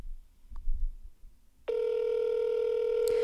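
A telephone ringback tone plays as a call waits to go through to voicemail. After a quiet stretch with faint rustling, a steady buzzing tone starts and holds unbroken to the end.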